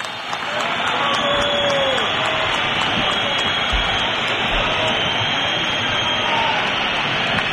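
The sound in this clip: A stadium crowd whistles in protest at the end of an Atlético football match, a loud, dense, unbroken wall of shrill whistling and noise that holds steady throughout.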